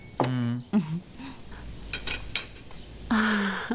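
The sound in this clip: Dishes and cutlery clinking as the table is cleared after a meal: scattered light chinks of plates and silverware, moderately loud, with louder tonal bursts near the start and end.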